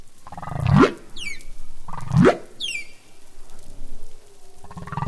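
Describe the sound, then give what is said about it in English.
Humpback whale song: two low moaning calls sweep sharply upward in pitch, each followed by a quick run of high, descending chirps, repeating in a clear phrase pattern over a faint background. “So humpback song is composed of multiple different sounds, but it's how they arrange them each year that changes. I want to play a clip of one of the songs here.”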